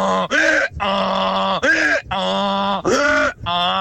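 A person imitates a donkey's bray with loud, nasal hee-haw cycles: sustained low groaning tones alternating with brief, higher, rasping bursts, repeated several times in a steady rhythm.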